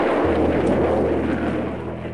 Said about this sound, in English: Those of us in Britain who have listened to the roar that followed the explosion of a V-2 on arrival will certainly recognize it.